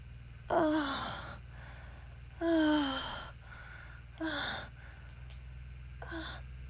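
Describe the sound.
Heavy, breathy voiced exhalations, four of them spaced a second or two apart, each dropping in pitch as it fades. A low, steady hum runs underneath and nobody speaks.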